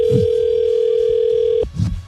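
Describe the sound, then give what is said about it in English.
Telephone ringback tone on an outgoing call: one steady, loud, continuous electronic tone holding for about a second and a half, then cutting off abruptly, with a couple of low thumps around it. “Oh, it's ringing.”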